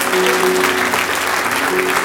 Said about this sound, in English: Give the Lord a hand clap.